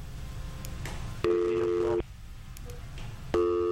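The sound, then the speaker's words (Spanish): A busy tone sounds after a dropped phone call: two steady, even electronic tone bursts, one lasting under a second and another starting near the end, over a faint background hiss. “Parece que se nos cayó la llamada.”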